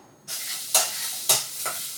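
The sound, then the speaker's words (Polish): Pea soup with sausage being stirred in a pot: a few scraping, swishing strokes over a steady bubbling sizzle. “Zupa bulgocza miło. Teraz Korzystając z wolnej chwili sobie ją przemieszam.”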